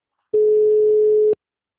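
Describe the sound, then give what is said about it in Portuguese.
A single steady telephone busy-line tone, mid-pitched and clean, sounding once for about one second before cutting off into silence. “Sua chamada está sendo encaminhada para a caixa de mensagens e estará sujeita a cobranças após o sinal. O número está ocupado.”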